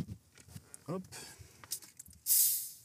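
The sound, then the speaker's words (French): A sharp hiss of gas escaping as a bottle of sparkling water is opened: one loud, bright burst near the end that slowly fades, after a few faint handling clicks and rustles. “Ouais, j'ai eu la mauvaise idée de prendre de l'eau gazeuse. J'avais totalement pas fait attention ce matin quand j'ai acheté la bouteille.”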